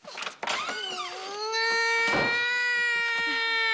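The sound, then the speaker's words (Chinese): A child cries, starting with broken sobs and then settling into a long, steady, high-pitched wail that holds to the end. “别哭了，别哭了啊。”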